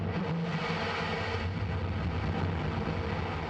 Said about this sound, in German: Eine Antares-Rakete der Raumfahrtfirma Orbital ATK hebt ab und erleuchtet den nächtlichen Himmel über dem US-Bundesstaat Virginia.